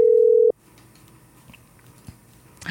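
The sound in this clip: Telephone ringing tone while a call waits for an answer: one steady, mid-pitched tone held for about half a second, then quiet line noise with faint clicks.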